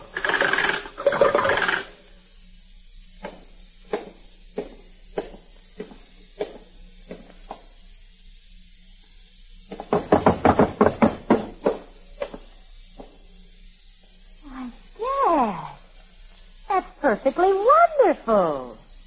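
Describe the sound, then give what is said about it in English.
A clockwork step-and-tread simulator machine mimics a person walking up and down stairs. Evenly spaced taps are followed by a faster clattering burst, with voices talking before and after. “This machine, operated by a simple clockwork mechanism within easy reach of the householder's pocket, has been designed to simulate the sound of a person walking up and down stairs.”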